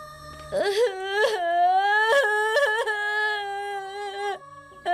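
A child crying in a sustained, high wail that swells and breaks into a few sobbing catches before trailing off.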